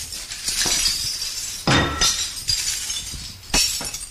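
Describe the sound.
Crockery smashes in a smash room's crockery room. Several sharp, loud crashes of breaking ceramic each ring out into scattered clinking shards, over a steady rustling background.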